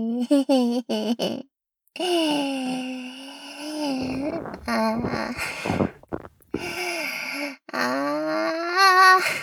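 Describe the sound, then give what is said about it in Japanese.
Farting in a toilet: a quick series of short sputtering bursts, then long, wavering, moan-like blasts broken by a few short pauses, fairly loud. “もう、ここ、トイレだもんね。どれだけおならしちゃってもいいんだわね。”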